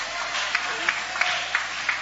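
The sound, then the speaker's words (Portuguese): A church audience applauds in a steady wash of clapping, with five evenly spaced, sharper claps standing out in a regular rhythm. The applause stays fairly faint throughout. “Quem está ativo no reino, levante a sua mão e vai aplaudindo o nome dEle.”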